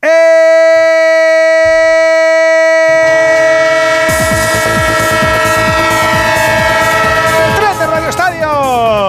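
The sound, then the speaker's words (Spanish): A train sound effect for a radio sports-program jingle: a loud, sustained train horn blares, joined by a rhythmic clatter of wheels on rails, and the horn bends down in pitch near the end. “¡El tren de Onda Cero! ¡Claro que sí! ¡El tren del fútbol y del deporte en vivo!”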